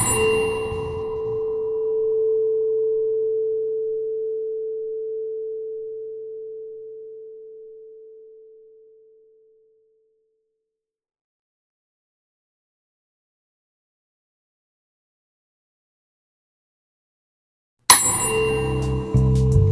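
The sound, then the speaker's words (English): A tuning fork is struck and rings with a steady pure tone that slowly fades to silence over several seconds; after a long quiet pause it is struck again. “Just listen to it closely as the sound dissipates, then simply tend to whatever else you hear for a little bit until you hear Mr. Fork ring again.”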